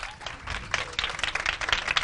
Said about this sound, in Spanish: un aplauso por favor para ellos